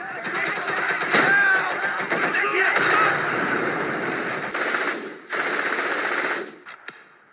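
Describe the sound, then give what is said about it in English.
Machine-gun fire from German troops opening up on soldiers near a campfire: long, dense rattling bursts, a short pause, then more sustained firing, ending with a couple of sharp isolated shots. “As soon as they were spotted, the Germans opened fire on them.”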